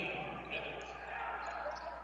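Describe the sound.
A basketball is dribbled on the court during a game, faint repeated bounces under a commentator's steady talk.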